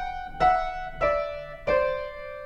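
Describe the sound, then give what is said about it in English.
Piano plays two voices moving in parallel seconds, sounding three struck pairs of closely clashing notes in slow succession. Each pair rings and decays before the next, and the line steps slightly downward. “And all you have to do is play it on the piano and you'll totally see why. You don't want to move in parallel seconds with a pair of voices because it sounds like this.”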